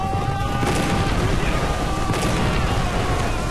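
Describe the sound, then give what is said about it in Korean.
Cannon and gunfire roar through a battle between English and French forces, with cannon fielded as a new weapon. The fire comes as a dense, continuous barrage with no separate shots standing out. “그런데 쏴라! 영국이 새로운 무기인 대포와”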